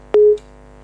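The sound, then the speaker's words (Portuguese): A phone line drops during a call-in, marked by a single short, clean electronic beep at a steady pitch over a faint low hum. “Perdemos esta chamada, mas ainda temos muitas mensagens para ler.”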